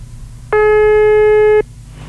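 A single steady ringback tone of about one second from a telephone call still waiting to be answered, standing alone above a low background hum.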